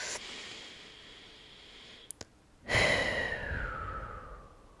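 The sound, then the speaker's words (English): A single deep breath during a guided calming exercise: a faint, quiet inhale, then a loud, long, airy exhale that slowly fades out. “So let's take 3 deep breaths together.”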